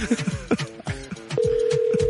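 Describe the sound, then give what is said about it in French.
A telephone number being dialed: people chatter over it at first, then a steady, clear phone tone sounds without a break through the last portion. “Ça compose pas vite, la personne? Qui compose ça?”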